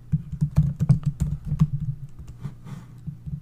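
Fingers type on a computer keyboard to enter a YouTube search, a quick burst of many clacking keystrokes that thins out after about two seconds, with no talking.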